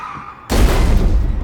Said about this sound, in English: The shark throws itself at Matt, who stands by a window. Matt ducks, and the shark crashes through.